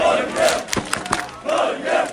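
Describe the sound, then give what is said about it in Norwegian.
Football fans cheer and roar in Oslo's streets at night, celebrating Norway's 3-2 win over Senegal; loud crowd noise swells twice, with sharp shouts and whoops breaking through the lull between the swells. “Det var full fest og stormende jubel i Oslos gater etter at Norge slo Senegal 3-2 i natt.”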